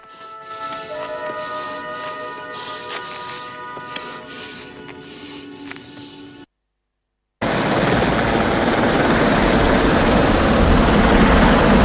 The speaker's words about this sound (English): A chopper hovers over the Russian fort.